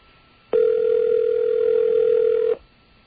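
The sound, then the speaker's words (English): A telephone tone sounds while dialing out on a restricted line to call information: a single steady, unwavering tone lasting about two seconds, starting and stopping abruptly, with no voices. “I was dialing out on the restricted line. But we're calling information now.”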